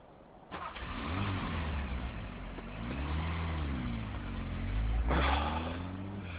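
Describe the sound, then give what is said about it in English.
A car engine starts abruptly on a snowy night, then runs with rising and falling revs as it pulls away, with a stronger rev surge near the end. “Then I'll drive slowly. It's snowing. Good, I'll have the road all to myself.”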